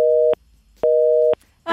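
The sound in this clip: A busy signal after a dropped phone call: two steady mid-pitched tone bursts, each lasting about a third of a second, separated by silence, clear and loud.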